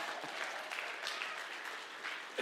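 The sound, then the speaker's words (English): A church audience claps its hands in worship, a dense, steady patter of many hands that stays fairly faint and even throughout. “let's all clap our hands to the Lord”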